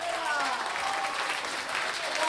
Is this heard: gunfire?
no